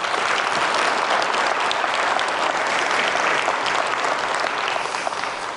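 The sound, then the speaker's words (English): Church audience applauding to welcome visiting guests from another church: dense, even clapping that holds at a steady loudness from start to finish. “Why don't you welcome them, give them a hand.”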